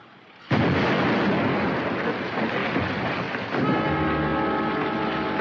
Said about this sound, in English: The cushion of water between the explosion and the wall absorbs the shock almost completely. Shall we have the second one? When you're ready. This should get our feet wet. Watch it. Fire!